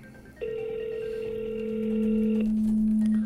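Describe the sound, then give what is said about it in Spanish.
Ringback tone of an unanswered phone call: a steady electronic tone sounds for about two seconds, overlapped by a lower steady tone that carries on to the end. “Es el mismo número. Está llamando, pero lamentablemente... No contestan.”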